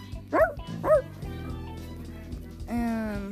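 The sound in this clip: A dog with a stub tail barks: two sharp, high yips in quick succession, then after a pause a longer, whining harmonic sound.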